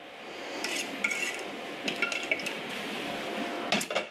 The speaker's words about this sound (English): take your boiling hot icing and you literally just pour it onto your pan like this.